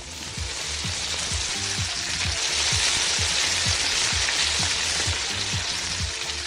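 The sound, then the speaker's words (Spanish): Meat fries in hot oil in a pot with a loud, continuous sizzling hiss that stays steady and dense throughout, and no one speaks. “ponemos a calentar el aceite en una cacerola y añadimos la carne.”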